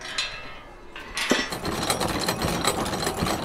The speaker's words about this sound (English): as we creep up slowly as the giant Yorkshire pudding Ferris wheel slowly cranks around